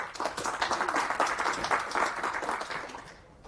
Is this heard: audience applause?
yes